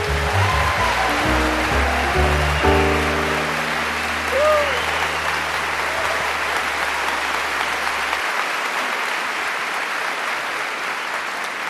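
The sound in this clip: An audience applauds to welcome a singer: sustained, even clapping from a large crowd, with low instrumental tones underneath for the first two-thirds before the clapping carries on alone.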